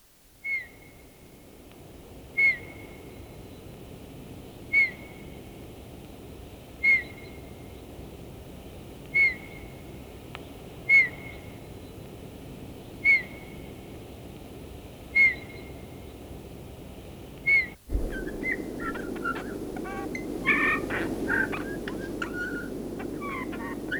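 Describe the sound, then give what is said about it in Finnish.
A bullfinch gives nine soft, evenly spaced piping whistle calls, followed by a very faint, twittering song over a steady background hiss. “Kutsuäänen jälkeen kuulemme punatulkun hyvin heikon laulu.”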